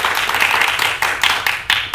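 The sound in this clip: Applause during a theatre staging of Büchner's play Danton's Death: a dense, hissing spread of many hands clapping, broken by a few sharper surges as the clapping swells and dips.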